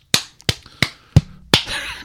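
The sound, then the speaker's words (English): Sharp, punchy smacks of a microphone being hit, five evenly spaced knocks roughly a third of a second apart, each with a brief ringing tail, and a sixth starting right at the end. “I hit the microphone, but that's how excited I am for Bryson.”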